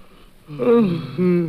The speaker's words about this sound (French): Là, tu vois, quand t'as envie de bailler, tu bailles comme tout le monde, oh, alors. Tu es idiot. Et là, je vais pouvoir bailler tranquillement.